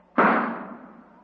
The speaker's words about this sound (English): stop shooting. Put down that gun.